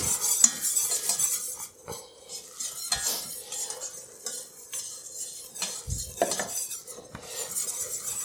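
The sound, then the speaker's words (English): A whisk stirs a flour and butter roux in a pan, making steady scraping with scattered light clinks at an irregular rhythm. The sound is fairly faint throughout, with no talk. “flour to kind of cook out its raw flavor, which might just be a couple of minutes as I'm stirring it with the whisk here.”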